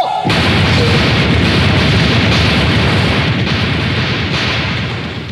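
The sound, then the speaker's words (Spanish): Rifle fire from a firing squad at the execution of a cartel hitman comes in as a sudden, very loud blast that rolls into a dense, sustained roar lasting several seconds before it slowly eases off. “Señores, ya se están impartiendo órdenes para el fusilamiento. ¡Escuchemos! ¡Repare! ¡Apunte! ¡Fuego!”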